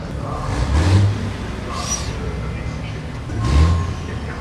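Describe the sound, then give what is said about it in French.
Racing trucks pass at about 160 km/h on a circuit during a 24-hour truck race. Two loud engine roars swell and fade, one early and one near the end, over steady crowd and track noise. “là on est à quelques centimètres des camions qui passent à 160.”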